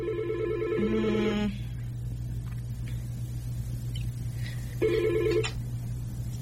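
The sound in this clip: Telephone ringing in a radio studio, two separate bursts of bright electronic ring tone, one at the start and a shorter one later, over a steady low hum with quiet gaps between.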